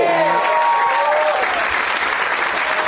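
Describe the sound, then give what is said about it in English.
Audience applause at a live comedy show in Madison: dense, steady clapping from a crowd fills the whole stretch at an even, loud level. “Let's not forget to give a round of applause to Jackie Kashian”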